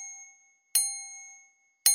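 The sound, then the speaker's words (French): A pendulum clock strikes the hour with bright, bell-like chimes about a second apart, each ringing clearly and slowly fading before the next. “la pendule sonne 3 heures.”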